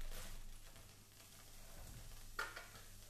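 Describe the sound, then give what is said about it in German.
Faint, steady sizzle of onions, garlic and chorizo frying in leftover oil in a pan, a soft continuous hiss broken by one brief, sharper clack near the end. “Und da ist jetzt noch ein bisschen Restöl und alles drin. Da hauen wir jetzt einfach die Zwiebeln mit dem Knoblauch und der Chorizo rein.”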